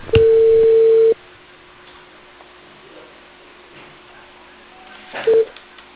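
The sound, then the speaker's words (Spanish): Telephone tones at the start of a call from a cable company: a steady, mid-pitched tone holds for about a second, then quiet line hiss, then a short tone burst near the end. “le estoy llamando de la empresa Cable Perú con la señora Paola María.”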